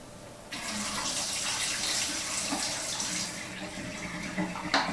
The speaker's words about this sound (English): This is the final wash.